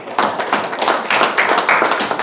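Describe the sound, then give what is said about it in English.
Audience clapping for standing family members of people who served: a crowd claps in uneven bursts, with some sharp individual claps standing out and the clapping growing a little louder partway through. “Oh, come on, the clapping should be just as much for them.”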